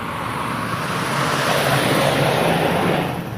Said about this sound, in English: how many noisy trucks there are on the street.